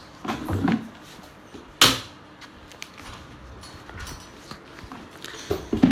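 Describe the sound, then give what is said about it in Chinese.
A door is shut to keep the cold air in, landing as one sharp, loud thud amid faint rustling and small knocks. “门关上，把门关上，冷气跑了。”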